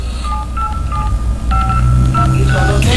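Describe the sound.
Telephone keypad tones beep in a quick run as the number 787-55239 is dialed, short paired pitches of varying height following one another over a low hum.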